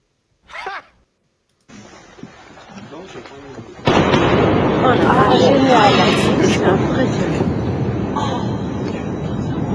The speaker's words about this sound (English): That was the Concorde? That was the Concorde flying over.